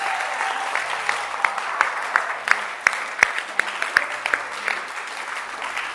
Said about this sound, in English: As you are clapping